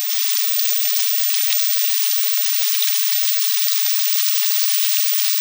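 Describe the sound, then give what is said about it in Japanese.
Meat-wrapped rice balls fry over high heat in a pan, giving a steady, even sizzle with fine crackling throughout and no voices. “肉巻きおにぎりは強火で一気に焼き色をつけましょう。”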